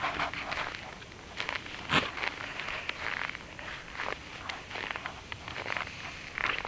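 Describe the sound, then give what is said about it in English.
Footsteps walk along an icy, rink-like sidewalk, a long run of scuffing, gritty steps at a fairly even pace over a faint background hiss. “Walking down the sidewalk towards the bus I would normally take to work, and really here again it's just a skating rink.”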